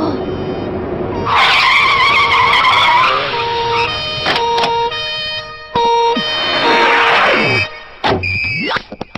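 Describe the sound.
Tires screech as a car is floored in an animated scene, loud squealing bursts with engine tones that run for a few seconds, break off, then return in shorter bursts to the end.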